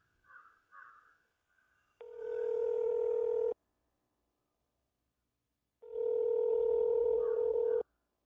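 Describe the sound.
Two long, steady telephone tones, each a loud pair of pure pitches lasting about one and a half to two seconds, separated by silence, follow a few faint soft sounds at the start.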